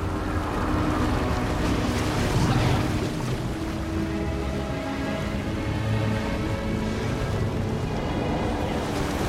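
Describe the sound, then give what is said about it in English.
Churning, rumbling water as a large ship sinks beneath ocean waves, a loud, dense, continuous roar of surging water and low rumble with no voices. “Dylan, Jennifer, and Nelson stare in awe as the mighty vessel sinks below the waves like a dying beast.”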